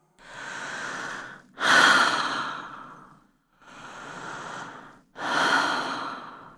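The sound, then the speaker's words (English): Deep breaths drawn in and let out through the mouth like a big sigh, as a relaxation exercise: two full in-and-out cycles, each a softer airy inhale followed by a louder, rushing exhale that gradually trails off. “Take a deep inhale in and out through the mouth like a big sigh.”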